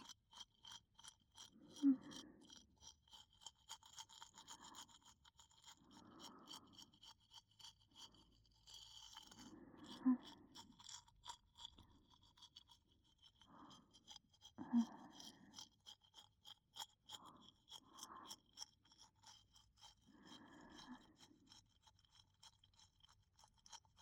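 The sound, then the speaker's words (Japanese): Faint, repeated scrubbing strokes of a toothbrush cleaning between a child's teeth after eating sweets, a steady series of many short brushing bursts in an otherwise quiet clip. “さっき食べたお菓子が歯と歯の間にいっぱいだよ。きれいきれいしようね。”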